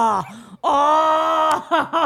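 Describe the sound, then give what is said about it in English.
A person grunts and groans while shifting position, first with a short strained grunt, then with a long, loud, drawn-out groan, and closes with brief vocal sounds. “I fucking grunt and groan when I have to change certain positions.”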